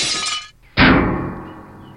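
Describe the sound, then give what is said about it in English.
A beer bottle dropped onto a console shatters in a loud, sharp crash of breaking glass. The crash trails off into a ringing, fading tinkle, after a brief burst of hiss just before the break. “You dropped your beer bottle on the console and it shattered. There is broken glass and beer all over the controls.”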